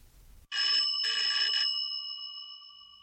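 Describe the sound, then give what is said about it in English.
An electric bell rings on a replica of an early wireless telegraphy receiver, a black box with the bell on top, giving a loud, rapid metallic ring for about a second with a brief break before the tone slowly fades. “It's a replica of the receiver that Marconi used for the first public demonstration at Turnbull Hall in London. Marconi walked around with this black box with the bell on top,”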